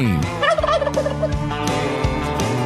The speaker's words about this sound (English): So if you're hosting Thanksgiving, expect prices to jump up about 40%. Basically, turkeys are trending up